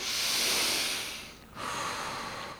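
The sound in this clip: Slow, deep breathing from someone calming themselves in sudden darkness after a blown transformer cuts the lights among passengers: one long airy breath, a brief lull, then a second long breath, steady and fairly soft.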